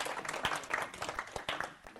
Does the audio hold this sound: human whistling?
no